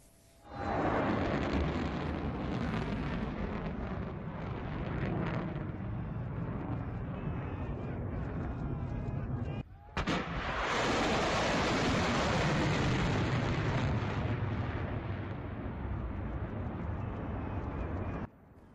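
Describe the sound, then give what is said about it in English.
Medium-range surface-to-surface missiles launched from western Iran at Daesh positions in Syria's Deir ez-Zor make a loud, sustained roar. It cuts off briefly near the middle, then surges again before stopping abruptly. “And now Iran has fired a number of missiles at positions that is of Daesh terrorists in Syria's Deir ez-Zor, inflicting heavy casualties on the Takfiri group.”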